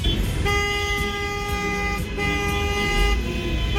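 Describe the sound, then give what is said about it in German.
Car horns honking on Italian streets: two long, steady blasts, the second following a brief gap, over a constant rumble of traffic. “So ein Hubkonzert ist ja offizieller Nationalsound in Italien.”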